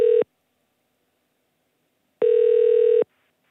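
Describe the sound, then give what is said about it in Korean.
Ringback tone while placing a phone call: the tail of one tone cuts off, then after about two seconds of silence a second steady, flat tone sounds for just under a second. “자, 다시 한번 전화 걸어봅니다.”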